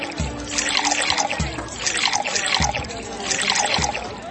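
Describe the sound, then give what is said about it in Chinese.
Water is poured to fill stone jars, giving a continuous splashing trickle. Four regular low thuds are spaced about a second apart beneath it, and no voices are heard. “先生，我哋已经用水装满晒呢啲水缸啦。”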